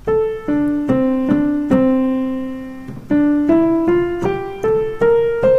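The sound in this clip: First four bars of a Richard Rodgers song melody, played as a clean solo line: notes step downward to a long held low tone, then climb steadily upward note by note.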